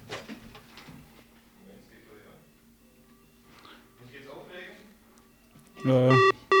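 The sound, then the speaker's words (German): A telephone rings with an incoming call during a discussion, after a stretch of quiet talk. A loud electronic trilling ring bursts in near the end, and a second ring is cut off. “Da kommt von draußen Anruf rein, der sich in die Diskussion einschalten wird.”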